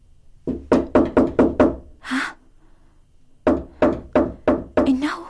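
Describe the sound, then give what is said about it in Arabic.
Firm knocking on a door in two bursts of several evenly paced raps each, separated by a pause of about a second, loud and hollow-sounding. “نعم، هكذا هو يطرق على الباب، لقد طال غيابه عنا.”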